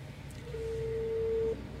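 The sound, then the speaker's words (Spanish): A telephone ringback tone sounds as a call is placed to a prize winner: one steady, mid-pitched tone lasting about a second over faint background hiss. “Tenemos la primera llamada, le vamos a realizar la segunda llamada.”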